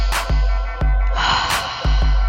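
Two loud, sharp, noisy breaths drawn in through the nose like snorts, separated by a pause, over a steady low hum with a few soft thumps in between.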